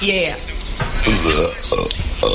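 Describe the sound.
A person burps loudly, a rough, croaking belch with a voiced, gravelly tone that rolls on for about two seconds.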